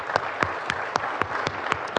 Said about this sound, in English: Let's remember all those that these men knew and loved and served with a hearty hand of applause.